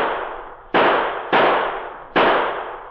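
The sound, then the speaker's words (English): Gunfire from men shooting: three sharp, loud gunshots spaced unevenly apart. Each crack has a long tail that fades away before the next shot. “Those men are shooting at it.”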